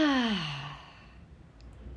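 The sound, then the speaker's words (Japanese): A slow breath out during a guided relaxation exercise: a voiced sigh that starts with a clearly falling tone, then trails off into faint, airy breath. “さあそれではゆっくりと息を吐いていきます”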